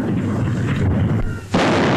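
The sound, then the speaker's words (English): Artillery guns fire a ceremonial salute at the Tower, a loud, continuous booming roar that dips briefly before a sharp fresh blast bursts in near the end. “At the tower, the salute is fired by the Honourable Artillery Company.”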